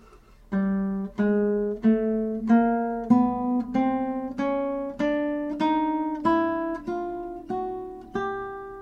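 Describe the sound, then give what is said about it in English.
Guitar plays a chromatic scale starting on G: a steady series of about a dozen plucked notes, each one a little higher than the last, ringing briefly and then fading, with no talk. “No notes left out, every note played. G, G sharp, A sharp, B, C, C sharp, D, D sharp, E, F, F sharp, G. So that's a chromatic scale starting on G.”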